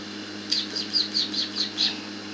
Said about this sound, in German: Kommt her, meine kleinen Küken. Kommt her, meine kleinen Küken.